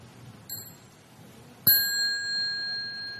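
A bell is rung during Buddhist mindfulness meditation practice. A faint first touch is followed by a clear full strike whose bright, high tones ring out and sustain.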